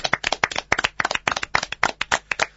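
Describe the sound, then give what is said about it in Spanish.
Lively applause as a group honours someone for an award they won, with dense, even handclaps filling the whole moment and no voices. “Así que te vamos a brindar un aplauso por eso y por el iris que ganaste ayer.”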